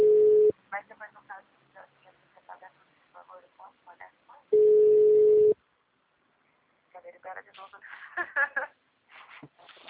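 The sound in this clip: A telephone ringback tone sounds twice, each a long, steady hum, while placing a call to a human resources office; people talk between the tones and after them.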